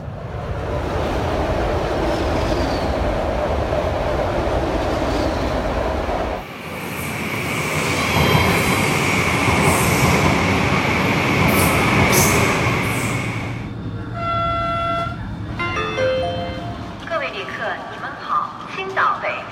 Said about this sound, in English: I've decided for the first 30 seconds to hand the microphone over to the railways of China. So here's a look at the sights, or rather, the sounds of the Chinese railways.